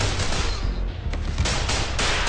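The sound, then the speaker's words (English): Guns fire simunition non-lethal training rounds in a rapid, loud fusillade, with many sharp shots overlapping in dense bursts throughout and no voices. “Remember, they're firing simunitions.”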